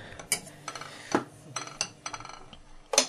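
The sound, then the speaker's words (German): Metal cutlery clinks and clatters as a fork is picked up from among kitchen utensils: a few sharp, bright knocks scattered irregularly, with quieter rattling between them. “Ich nehme eine Gabel, man kann auch eine Kelle nehmen.”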